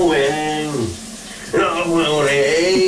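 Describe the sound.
A man singing under a running shower, his voice rising and falling in sustained sung phrases over a continuous hiss of spraying water, with a short pause between two lines.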